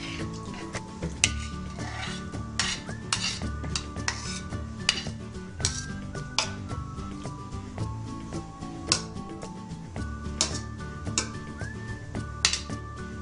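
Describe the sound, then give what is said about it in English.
Shrimp go into an oiled pan, with a soft sizzle underneath many sharp clinks and scrapes of a utensil stirring against the metal pan, tapping in an irregular, busy rhythm throughout. “Add a little oil. Get it all over the pan before I add. Now I'm going to add the shrimp.”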